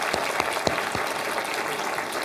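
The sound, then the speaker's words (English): An audience gives a round of applause, with dense, steady clapping heard alone at an even level from start to finish. “Everybody give a round of applause, even though I told you.”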